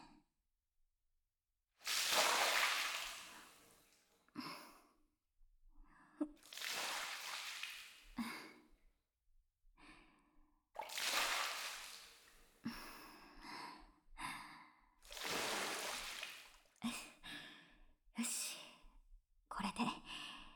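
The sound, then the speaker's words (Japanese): Hot water poured over a bather during a bath, heard as four long splashing gushes of about two seconds each, with shorter bursts of water between them and brief quiet gaps. “お湯をかけていきますから、少々我慢していてくださいね。”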